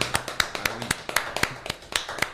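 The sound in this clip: Hand clapping from a small group: many sharp, distinct claps in a quick, fairly regular run at moderate loudness.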